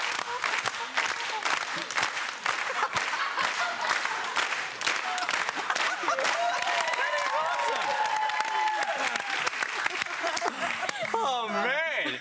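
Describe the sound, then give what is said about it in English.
An audience claps out a steady, even beat together, sharp and continuous throughout. Voices and whoops rise over it toward the end. “Oh well, Grant, I could show you, but I'd probably need a beat from the audience.”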